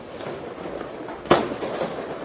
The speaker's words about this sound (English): Right behind me, and just as you started talking, we're seeing fireworks. We've seen these fire towards police for much of the last 19 hours I've been standing here.